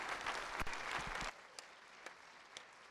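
A church audience applauds to welcome a pastor during a morning service. A short, full burst of clapping stops abruptly after about a second, and three scattered single claps follow.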